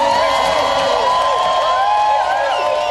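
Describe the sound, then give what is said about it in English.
A crowd in Melbourne cheers on arrested climate protesters, a dense, loud mass of shouting and whooping voices that carries on without a break. “In Melbourne, arrested protesters were cheered on.”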